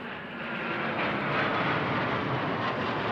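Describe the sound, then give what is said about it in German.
Three military Eurofighter fighter jets approach to land at an airport, making a steady, broad jet roar that swells slightly at first and then holds loud and even throughout. “Die Bundeswehr trainiert am Nürnberger Albrecht-Dürer-Flughafen mit 3 Eurofighter-Kampfflugzeugen. Franziska Simon war dabei, als die Maschinen gelandet sind.”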